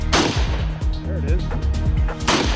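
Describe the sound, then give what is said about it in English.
Two sharp gunshots from an M8, a compact, lightweight shoulder-fired weapon: one loud blast near the start and another near the end, with people talking between them. “So what's it like to fire the M8? Really push that gun into your shoulder.”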